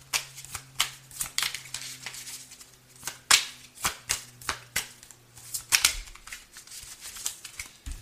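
Playing cards are shuffled and handled in many crisp, papery flicks and slaps that fall in an irregular rhythm, over a low, steady hum.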